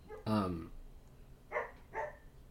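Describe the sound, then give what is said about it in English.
A dog barks three times in the background: one longer, louder bark, then two shorter, fainter ones spaced about half a second apart. “If you hear a dog in the background, I apologize.”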